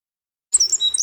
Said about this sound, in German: Der Zaunkönig. Diesen kleinen Vogel könnten Sie schon frühmorgens auf einem Zaun sitzen sehen.